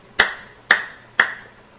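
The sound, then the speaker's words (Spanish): Hands clapping, three sharp, crisp claps evenly spaced about half a second apart, each bright with a short decay, heard alone. “Eso significa batir las manos. Implica aplaudir.”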